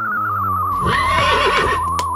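A horse neighs in a loud, quavering whinny that swells mid-clip and trails off over about a second, with a steady wavering tone running beneath it throughout.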